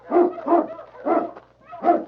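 A large dog barks four times in distinct, evenly spaced woofs while tracking through snow near rocks, the barks fairly loud and alone with no talk.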